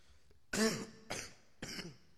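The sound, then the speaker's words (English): Someone with a lingering cough coughs three times in quick succession: a loud first hack, then two shorter, weaker ones, with no talking. “I've been having a cough for a while. I think you can tell. I apologize.”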